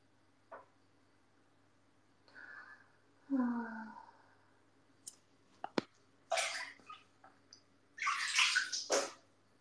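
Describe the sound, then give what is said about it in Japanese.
Water in a bath while hair is being washed: bursts of splashing and running water, strongest near the end, with a soft breathy vocal sound and a few small knocks before them. “はあ、そろそろ髪の毛洗うかな。”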